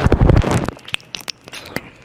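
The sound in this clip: Wet sucking and slurping sounds of simulated oral sex made with dildos for an ASMR recording: a dense, loud burst of moist smacking at first, then a few scattered, sharp wet clicks and pops.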